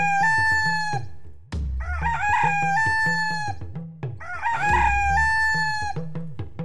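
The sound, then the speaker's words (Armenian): Rooster crowing in loud repeated harmonic calls, each crow stretching out over about a second, with a low rhythmic pulsing running underneath. “Եվ նա երեք անգամ բարձր ծուղրուղու կանչեց”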